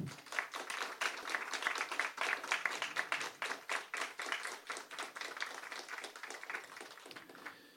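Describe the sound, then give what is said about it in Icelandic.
Applause from an audience at an association meeting: a dense, steady patter of many hands clapping that holds for several seconds and eases slightly toward the end. “Og mér langar eiginlega bara að byrja ykkur að gefa þeim gott klapp.”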